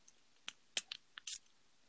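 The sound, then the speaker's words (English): Faint, short hissing spritzes of perfume sprayed for ASMR: several quick bursts spaced irregularly, the last one slightly longer, with quiet gaps between them. “It was me spraying perfume.”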